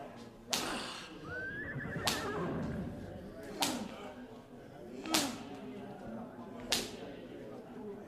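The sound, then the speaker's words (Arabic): Horses in a radio drama: a horse whinnies early on amid a galloping bustle, and five sharp whip-like cracks ring out at even intervals over the rumbling background. “الخيول جريت.”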